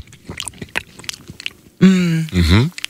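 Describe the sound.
Someone bites into and chews a juicy mango, with a run of soft, wet, crackling mouth sounds. A short burst of voice follows at the end.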